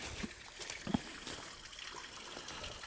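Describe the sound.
Water trickles over the top of a small pond dam, a soft, faint, steady burble with a few slightly louder drips near the start and no voices.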